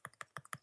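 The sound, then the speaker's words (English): Fingers tapping on a piece of paper make a quick, fairly even run of soft, dry taps, faint and alone. “That was the sound of that started as fingers tapping a piece of paper.”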